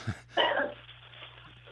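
A short cough and throat clear from a caller on a phone line: a low thump, then a louder rasping burst that fades over a steady low hum.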